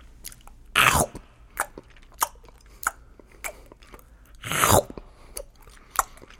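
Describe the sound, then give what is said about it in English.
Someone eating a hamburger, with two loud, crisp bites and several softer, evenly spaced chewing crunches between and after them, heard alone without any talk. “This is the sound of eating a hamburger.”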